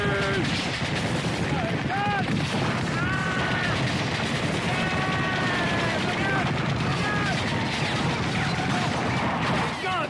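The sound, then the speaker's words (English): Dense, steady gunfire shooting out windows in a chaotic scene, loud and unbroken throughout, with shouting voices over it. “Shooting out the windows!”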